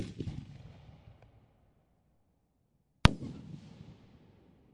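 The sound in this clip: An aerial firework shell bursts with one sharp, loud crack, followed by a rumbling, crackling tail that slowly fades; before it, the decaying rumble of an earlier burst dies away into near silence.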